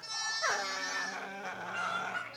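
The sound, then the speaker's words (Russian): Alarmed hens clucking inside a winter hut: agitated, shrill squawks and cackles that run on without a break through the whole clip, loud and dense. “кудахтали в зимовье растревоженные куры”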